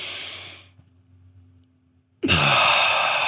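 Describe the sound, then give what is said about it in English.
A deep cleansing breath, drawn in through the nose and released through the mouth: a loud, airy breath, then about a second and a half of near silence, then another strong, rushing breath that carries on to the end. “You pull it in through your nose, you hold it for a couple seconds, then you release from your mouth. And it's a cleansing breath.”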